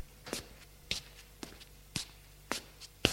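Footsteps of a woman walking: six steady, evenly spaced steps with crisp, sharp attacks and no voices.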